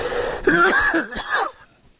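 A throat clearing and cough from a tickle in the throat: one short, rough, voiced burst that breaks into a couple of guttural pulses and then fades, heard alone.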